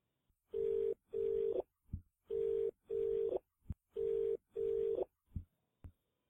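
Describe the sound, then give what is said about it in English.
Telephone ringing tone on a line being dialed: three pairs of steady, mid-pitched buzzing tones with short pauses between pairs, and a few faint clicks in the gaps. “Dialing.”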